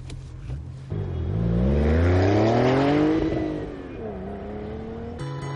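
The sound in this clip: A car accelerating in the early morning: the engine note climbs steadily in pitch and loudness as it revs up, then eases back and settles into a lower, steadier hum.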